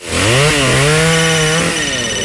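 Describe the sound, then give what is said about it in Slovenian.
A chainsaw cuts through wood, its engine running loud and steady with a strained, buzzing whine that dips briefly in pitch twice as it bites. “Tunč ga tak seka z motorko”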